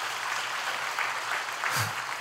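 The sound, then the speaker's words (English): Faint applause from a church audience during a sermon, a soft, diffuse patter of clapping held at a low, even level throughout. “Go ahead and applaud for that if you like.”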